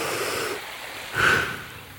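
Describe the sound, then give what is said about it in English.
One deep inhale during a guided breathing exercise: a soft hissing draw of air swells up briefly after a quiet, steady stretch, then fades. “Now let's get going with round three. Ready? Inhale.”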